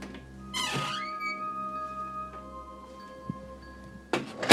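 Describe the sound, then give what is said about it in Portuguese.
A kitchen back door creaks on its hinges, giving a drawn-out squeaky creak whose pitch falls early on. A thin, sustained ringing tail follows, then a louder, noisy burst at the end. “Descendo as escadas, ouviu algo que parecia uma porta abrindo e fechando.”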